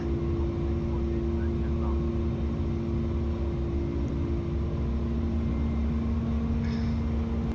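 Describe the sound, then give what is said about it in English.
An airplane taking off in a flight simulator video game gives a constant, loud engine drone with steady whining tones, unchanging in pitch throughout. “I'm only 15 miles away from the airport and I've been flying for 21 miles. Yeah, I'm taking off again.”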